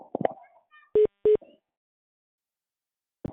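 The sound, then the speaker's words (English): Two short, identical electronic beeps from a mobile phone ringing, evenly spaced and clear, following brief speech at the start. “That's my phone.”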